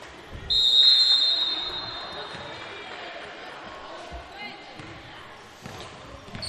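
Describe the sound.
A basketball is dribbled during a women's basketball game, giving a few dull low thuds on the court. They sit under a steady crowd murmur while a commentator talks over the play.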